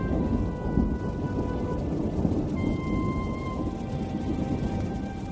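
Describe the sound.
Rain and thunder at night: a steady, dense hiss of rainfall with a low rumbling undertone that holds evenly throughout, with no clear separate thunderclaps standing out.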